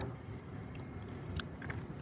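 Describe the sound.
Chewing a Buster Bar Parfait of peanuts, chocolate and soft serve: soft, moist mouth sounds and a few small crunches over a steady low background hum, with no talk.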